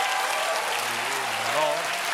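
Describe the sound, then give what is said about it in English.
Audience applause as parents clap after a joke, a steady dense patter of many hands at moderate loudness, with a voice speaking over it. “That is actually all the parents clapping because they know that joke is true.”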